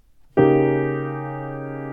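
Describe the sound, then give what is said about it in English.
A single harpsichord chord struck with all notes together, not rolled: one sudden bright plucked attack after a brief silence, then a steady ringing sustain that slowly fades. “Here's how that chord would sound if it was not rolled.”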